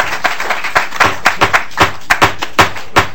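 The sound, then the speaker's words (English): Scattered applause from the audience at a public hearing on a bill, just after a witness's testimony: a loose series of sharp, irregular claps, steady in loudness over a few seconds, with no talking. “We do not allow applause.”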